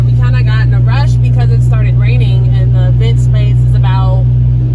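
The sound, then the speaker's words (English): A car drives with a steady, loud low engine and road rumble that fills the whole clip, while a person talks over it. “So now we're driving there.”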